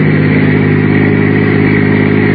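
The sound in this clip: Engine drone of a car being driven at night with passengers inside, a loud, constant low hum with steady harmonics and no clear change in speed.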